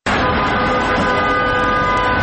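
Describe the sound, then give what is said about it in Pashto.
Steady rumble and hiss of a vehicle as a grey military ambulance with a red light on its roof pulls out of a government hospital, a loud continuous wash of road noise with a faint thin tone held throughout. “د خړ نظامی امبولانس پر سر سره اشاره لګیږي او په صورت د بوس دولتي روغتون څخه د وتلو په حال کې دی.”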